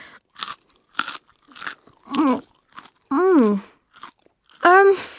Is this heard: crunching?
yes